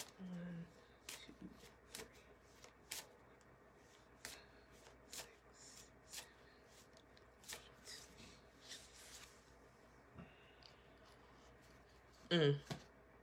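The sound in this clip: Cards being handled and drawn from a tarot-style reading deck: a soft, steady shuffling rustle broken by a series of quick card flicks, ending in a louder burst of riffling.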